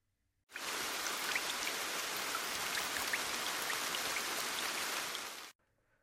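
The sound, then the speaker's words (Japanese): Steady rain falls in an even, dense hiss of many drops, starting abruptly, holding at a constant level for about five seconds, then cutting off. “ふう、また雨か。あの日もこんな感じの雨だったな。”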